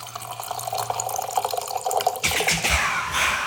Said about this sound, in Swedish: Ja, visst var det bag and box.